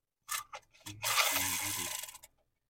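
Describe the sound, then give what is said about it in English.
A topic wheel is spun. A few separate clicks are followed by a rapid, ratcheting clatter that runs for over a second and then stops abruptly, with no talking over it. “Anyway, let's spin the wheel again. Let's go to another topic. Okay, let me spin it this time.”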